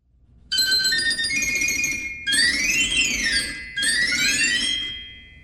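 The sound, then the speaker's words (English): Tuned steel glockenspiel bars and piccolo pipes of a hand-turned organ play a bright, high, bell-like melody in three phrases split by brief gaps, with ringing struck notes over piping tones, and the last phrase fades out. “The glockenspiel consists of tuned steel bars and is located horizontally across the front of the organ. Together, the glockenspiel and piccolos sound like this.”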